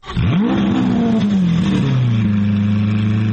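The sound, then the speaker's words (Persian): A car engine revs at the Geneva motor show. The pitch climbs quickly into a loud, strong roar, holds there, then drops to a lower, steady drone that continues to the end. “این صدای اتومبیل‌های حاضر در نمایشگاه خودروی ژنو است.”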